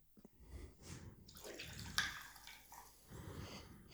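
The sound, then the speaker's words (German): Gin being poured from a small bottle into a glass, a faint liquid trickle and gurgle in a few uneven bursts with a brief sharper splash partway through. “Du darfst dir auch bitte einschenken davon.”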